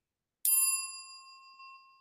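A notification bell dings once, a bright metallic strike that rings on in a slowly fading tone, heard alone without voices.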